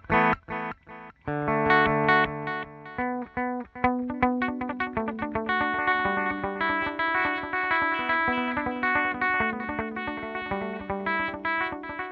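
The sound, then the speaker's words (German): Instrument notes run through a simple delay effect with the mix turned up, starting with a few short stabs before a steady stream of notes with repeating echoes trailing each one. “Das ist das übliche Delay, ne? Genau, das ist jetzt das Simple Delay.”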